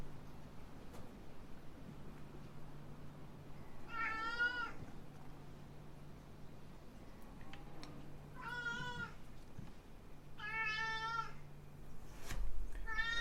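A cat meows three times, each a wavering, tonal call lasting under a second, over a faint low hum. The first stands alone and the last two come a couple of seconds apart.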